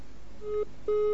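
A phone line tone after a call disconnects on a live call-in line: two short, steady low beeps, the second slightly longer, fairly faint, with no talk.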